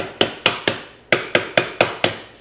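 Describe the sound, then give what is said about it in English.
A hammer taps down sharp edges in eight sharp, evenly paced strikes, each ringing briefly before the next. “Let's see if I can just kind of tap down some of the sharp edges.”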